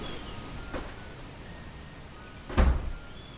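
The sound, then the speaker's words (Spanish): A door shutting with one low, dull thud near the end, after a fainter knock earlier, over a steady background hiss. “Y ahí se siente que se cierra una puerta.”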